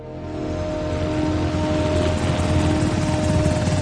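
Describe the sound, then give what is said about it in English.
Loud, steady rotor and engine drone of a military helicopter landing in front of an embassy in Mexico, a dense roar with a low throbbing beat that swells slightly and holds throughout. “A military helicopter lands in front of the US Embassy in Mexico.”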